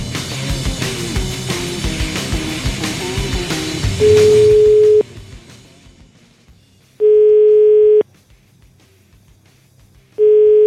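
Telephone line tone before a call is placed: three steady, loud beeps of about one second each at even intervals, the first sounding over the end of music that fades out.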